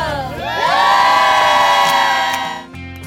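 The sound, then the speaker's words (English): A studio audience cheering and whooping: loud, sustained crowd shouts with rising, high-pitched whoops that swell and then ease off near the end. “How about a shout out to our crowd right now”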